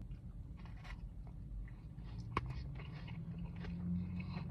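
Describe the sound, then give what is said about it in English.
Biting and chewing into a meat-heavy carne asada taco with a soft tortilla that falls apart, giving steady soft mastication noises with one sharp crunch midway. “I got a carne asada taco and an al pastor taco, and they were around $4 a taco. Carne asada taco. They put a lot of meat on here.”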